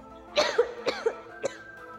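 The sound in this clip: A short fit of violent, dry coughing: three harsh, voiced coughs in quick succession, moderately loud and alone, with no talk.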